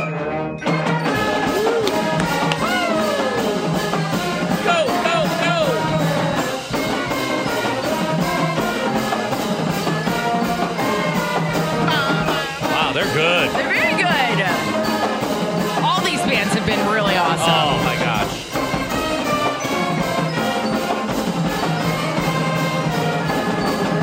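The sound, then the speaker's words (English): Central Valley Warriors school fight song playing as continuous, loud, dense music that runs without a break from start to finish. “And but we do have to congratulate our Central Valley Warriors. Here we go. And here's their fight song.”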